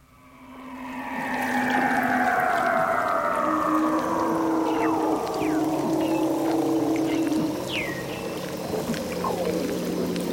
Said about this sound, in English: Here's a Weddell seal in the Antarctic, and here's its voice.